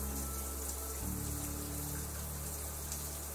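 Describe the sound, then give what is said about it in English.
Water rinsing through hair runs as a steady, full wash of splashing and pouring, unbroken throughout with no voices. “Now just tilt your head back and I can rinse out your hair.”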